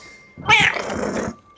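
A cat sitting on a pawnshop counter gives a single drawn-out meow, loud and tonal, that lasts about a second before cutting off into quiet.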